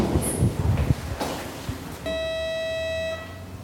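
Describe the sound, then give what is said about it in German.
A lift carries riders up to an apartment door in a residential building: rough rumbling movement noise, then a steady buzzing tone that holds for about a second before cutting off. “Mit dem Aufzug geht es bis vor die Wohnungstür.”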